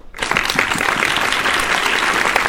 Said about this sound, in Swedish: Det passar med en applåd där.